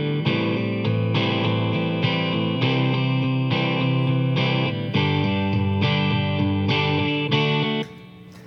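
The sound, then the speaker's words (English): Distorted electric guitar strums a D, A minor 7, C, G chord progression in a steady rhythm with ringing, sustained chords. It plays loud and alone, then drops off sharply near the end. “The basic changes in that are D, A minor 7, C, and G. They sound like this.”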